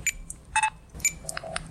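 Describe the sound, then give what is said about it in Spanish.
Supermarket ambience with several short electronic checkout beeps. The beeps are bright and tonal, some higher and some lower, and come in quick irregular succession over a faint, steady background hum. “Este es el sonido de un supermercado.”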